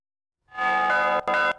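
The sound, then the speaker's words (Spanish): Traditional Spanish church bell ringing at a bell-ringers' gathering in Meruelo, Cantabria: after a brief silence a loud, rich metallic tone rings out and sustains, breaking off briefly twice before sounding again. “Y son los tradicionales toques de campana de distintas regiones de España.”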